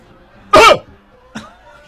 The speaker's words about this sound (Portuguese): Tosse.